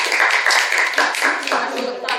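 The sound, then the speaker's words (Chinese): Audience applause in a classroom as a student is invited up to present a project, with brisk, uneven clapping and some talk mixed in. “好，请上来，谢谢。好，大家掌声。”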